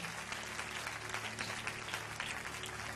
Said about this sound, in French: On peut acclamer Jésus.